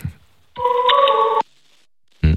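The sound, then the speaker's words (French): A telephone call rings with no answer: one long, steady buzzing ring tone sounds clearly, then stops into silence before a brief voice cuts in at the end. “ça ne décroche pas”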